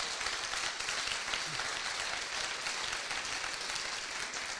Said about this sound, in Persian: برای شادی روح مادر منم یه دست محکمتر بزنم.